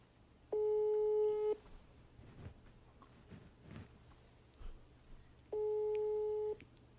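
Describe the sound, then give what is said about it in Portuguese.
A telephone ringback tone sounds on a call that goes unanswered: two steady, mid-pitched one-second tones about four seconds apart, with faint background noise in the silent gap between them. “Vou ligar pra Valéria.”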